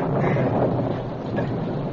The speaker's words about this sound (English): The storm raged on through the night.